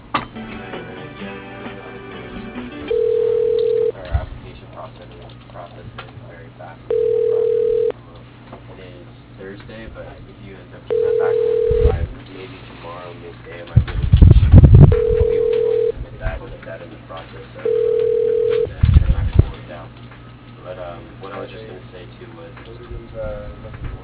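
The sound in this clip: Telephone ringback tone repeating as a call is transferred to voicemail: five steady, evenly spaced tone bursts over a low background hum, with a few soft thumps between them.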